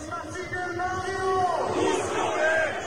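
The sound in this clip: Stadium crowd at a football match cheering a player's hoped-for return, a loud, sustained roar with chanting voices and yells that swells slightly over the few seconds.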